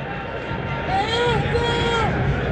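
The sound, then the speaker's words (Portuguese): Crowd ambience fills Beira-Rio stadium during a football match, a steady wash of murmur from the stands with scattered higher shouts rising above it. “O ambiental é esse. Esse é o ambiental do Beira-Rio aberto nesse momento, na jornada esportiva estilo Guaíba.”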